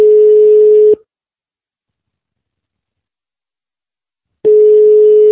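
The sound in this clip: Ringback tone of an outgoing telephone call after dialing: a loud, steady low tone lasting about a second, then a long silence before the same tone starts again.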